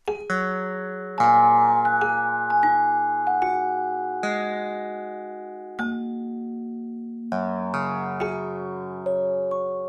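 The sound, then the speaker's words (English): Bell-like chimes and plucked string notes from a program that turns online encyclopedia edits into sound, bells for additions and plucked strings for deletions; many overlapping, slowly decaying tones at varied pitches arrive in an irregular rhythm, with no voices. “They wrote a program that turns every edit of a Wikipedia entry into a sound. Whenever someone adds information, you hear a bell. And when they delete something, you hear a string plucked.”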